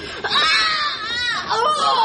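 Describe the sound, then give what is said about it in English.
A woman screaming in labor in a bar: a loud, high, strained wail with a wavering pitch, nearly continuous, with a brief break before it rises again. “You can scream till you shatter every glass in this bar”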